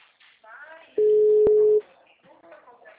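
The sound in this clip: A single steady telephone tone sounds after a dropped call. It holds level and loud for just under a second, with people talking before and after it.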